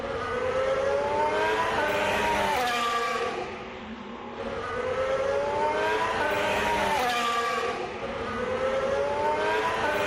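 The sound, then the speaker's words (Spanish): A new Williams Formula 1 racing car's engine screams in a loud, high-pitched whine, climbing in pitch through repeated surges with brief dips between them, heard alone without talk. “he podido grabarle y así suena el nuevo Williams de Carlos Sainz”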